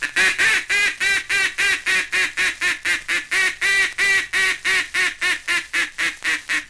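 Duck come-on-back call: a long, steady run of loud, evenly spaced nasal quacks, many in a row with a regular driving rhythm and no pauses.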